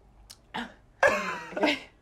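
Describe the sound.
Coughing and gagging from a person choking on a gulp of Stella lager: a tiny catch, then a short rough burst, then a longer harsh, strained sputter that fades, with no speech.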